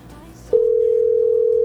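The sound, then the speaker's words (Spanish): Telephone ring tone heard while calling a radio listener: a loud, steady single-pitch tone starts about a third of the way in and holds unbroken to the end, after a quieter stretch of murmuring background sound. “Dos timbradas más y si no, marcamos a otro oyente.”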